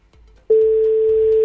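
A telephone line tone sounds after an extension is dialed. A brief low rumble comes first, then a loud, steady, single-pitched electronic tone starts abruptly and holds for about a second.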